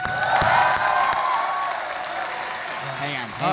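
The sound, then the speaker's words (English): Applause from a Hope College audience welcomes a preacher giving his first sermon, a steady wash of clapping under a voice and tonal sound that fades slightly across the few seconds. “Would you please give a warm Hope College welcome to our own Joel Jojo Borsma.”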